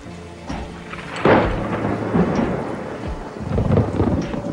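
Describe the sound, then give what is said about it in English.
Thunder rolls through a steady rainstorm with lightning, as a heavy rumbling crack breaks about a second in and lower rumbles swell again later over the constant hiss of rain. “In his cage, collared Danny reads his ABC book in the darkness. Flashes of lightning illuminate the pages.”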